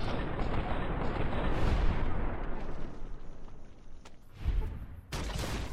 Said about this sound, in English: He's right below me, and it's a fucking grenade.